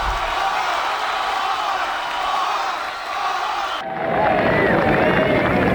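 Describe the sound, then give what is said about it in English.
A concert crowd applauding and cheering to welcome Bob Dylan onstage, a broad roar of clapping and voices that swells louder in the second half. “I can tell from your applause he needs no further introduction.”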